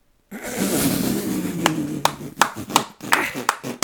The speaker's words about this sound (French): À 3 on clap. Ouais. 1, 2, 3.